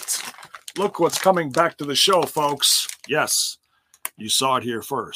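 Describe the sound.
Crinkling of a plastic bag of 300 Dum-Dums lollipops: brief, papery rustling bursts that sit under and between a voice talking, with one clearer burst in a short gap.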